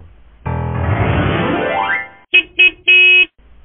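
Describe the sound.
An office car's horn honks: a long, buzzing blast with a rising whine, followed by three harmonic toots, two short and a final longer one, loud and alone.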